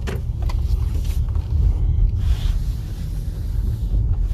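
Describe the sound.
Motorist's car passing by: a continuous low road rumble with a broad, windy rush that swells slightly in the middle, alone without talk.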